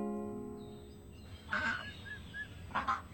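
Ducks call in a farmyard with a few short, nasal, honking cries in quick succession over a low, steady background hum.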